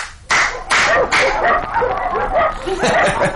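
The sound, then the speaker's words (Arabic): Dogs bark at a sheikh's dwelling: a few sharp, loud barks at the start, then whimpering, whining yips that continue to the end. “ما رأيت أكسل من كلاب الشيخ، كأنها ترجو القادم أن يشد أذنابها لتنبح”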